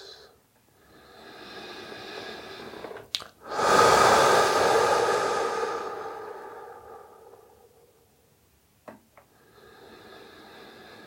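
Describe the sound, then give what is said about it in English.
Deep breathing during a meditation: a slow inhale, a brief catch, then a long, loud, airy exhale that tapers into quiet before another soft inhale begins. “take a moment to take four more deep breaths.”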